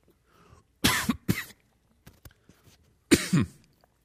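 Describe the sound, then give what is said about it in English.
Coughing from someone whose drink went down the wrong pipe: two loud, harsh coughs in quick succession, a quiet pause, then two more bursts near the end. “It's really bad when you take a drink and it goes down the wrong pipe. Excuse me, pardon me.”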